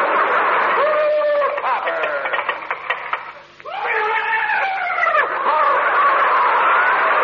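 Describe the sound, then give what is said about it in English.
The hoofbeats of Hopalong's horse, ridden on a cobblestone cloud, come as a rapid run of clattering clicks. Loud wailing tonal sounds rise and fall around them. “That sounds like Hopalong. He must be riding on a cobblestone cloud.”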